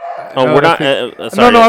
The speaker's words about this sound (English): if you can hear my dog in the background, he's not being murdered. He just doesn't like not being in the room.